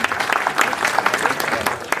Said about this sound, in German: Super, ein Applaus bitte. Richtige Antwort.